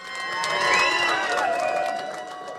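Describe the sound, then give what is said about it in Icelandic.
Crowd cheering fills an election-night party at Glerártorg, a continuous roar of voices that swells early on and then holds loud, with sustained tonal shouts rising above it. “Sjónvarpsupptökur frá kosningavöku Ellistans á Glerartorgi þessa nótt sína fagnaðalætin.”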